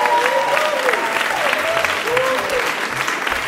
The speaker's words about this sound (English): And could we give one more hand tonight to all our guests, who I thought were just fantastic.